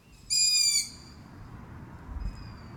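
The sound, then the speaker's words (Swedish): Young long-eared owls call for their parents from a woodland grove: one loud, high, squeaky call, then a much fainter answering call a couple of seconds later, over a quiet low rumble. “det är nog hornuggleungar som sitter utspridda i en skogsdugge och ropar på sina föräldrar”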